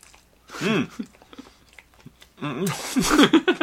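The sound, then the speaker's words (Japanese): Biting and chewing into a rolled bread sandwich, made like sushi with mustard and cheese, gives a few crisp, crunchy bites, with voices talking between and over the chewing. “サンドイッチ、巻きサンドイッチというか、まあ、パンで作った巻き寿司を。 はい、はい、食べてください。 はい、行きますよ。 あ、ええ音しますね。”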